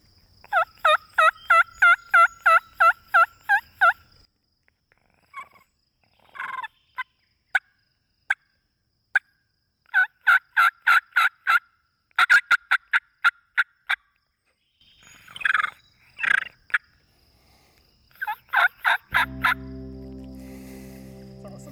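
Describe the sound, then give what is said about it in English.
Turkey yelps imitated by a person with a reed mouth call, air forced over the reeds: a long, rapid run of raspy yelps, then scattered single notes and further bursts of yelping, loud and alone. “you trap it against your tongue and the roof of your mouth and force that air over those reeds. Mm-hmm. And it's amazing the sounds that you can get out of it. All right, yeah, so let's hear some. Just a turkey yelp.”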